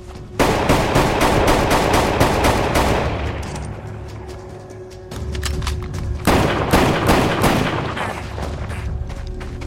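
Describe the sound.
Gunfire in a forest as men shoot at a man who fires back with a pistol from behind a tree. Rapid volleys of many shots fade into a brief lull, then dense bursts resume.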